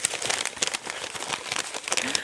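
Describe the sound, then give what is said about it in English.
Paper crinkles and crackles as an envelope is opened, a busy run of dry rustling and crisp tearing bursts with no voices. “Let's open that envelope and see the answers.”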